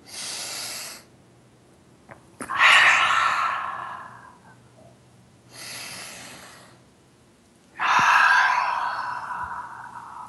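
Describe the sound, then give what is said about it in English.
Two slow, deep breaths, each a short airy inhale followed by a louder, longer exhale that trails off. Four breath sounds come in a steady rhythm with no talking. “Take a couple of deep breaths.”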